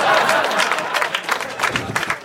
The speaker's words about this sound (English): One guy clap.